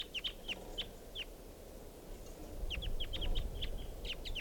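Wild birds calling in short, sharp, high chirps, a cluster at the start and a denser burst later, faint over a low rushing background.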